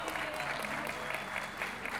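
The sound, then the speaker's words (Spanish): Audience applause at a gathering of Chilean improvising folk poets, honouring a female performer: sustained, fairly soft clapping with a steady texture and small bursts throughout. “Un aplauso para Ceci.”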